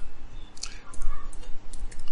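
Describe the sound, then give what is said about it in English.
Typing on a computer keyboard, a quick run of light, faint key clicks. “I'm going to type it right here. so I don't forget.”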